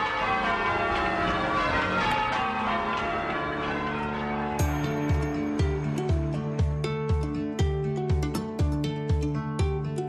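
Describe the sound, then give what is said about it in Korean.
Church bells in Boston peal in change ringing, bells of different weights struck one after another in a precise, repeating order. Their tones overlap into a ringing wash, and strikes grow sharper and more evenly spaced in the second half. “각각 무게가 다르기 때문에 서로 다른 속도로 움직이게 돼요. 그래서 하나의 소리를 낼 수는 없어요. 이런 종소리를 전조타종이라고 부르죠. 주의 깊게 들어보면 아주 정확한 순서에 따라 종소리가 울려요.”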